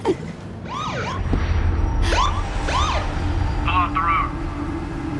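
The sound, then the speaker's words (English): A police car siren wails behind a truck in a series of quick rising and falling sweeps, loud and shrill over a steady low background noise. “They look round to see a police car following them with its roof lights flashing.”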